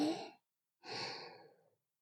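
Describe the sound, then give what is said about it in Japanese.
Breathing in, paced as a breathing exercise: a short breath, a pause, then a longer, slow airy inhale, soft and alone with no talk. “吸って、”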